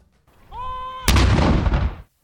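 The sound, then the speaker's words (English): A salute gun fires during a 41-gun salute honouring Prince Philip in Commonwealth countries including Australia. A short steady tonal note gives way to one loud, sharp boom with a rough, rumbling decay. “Commonwealth countries, including Australia, have fired a 41-gun salute to honour Prince Philip.”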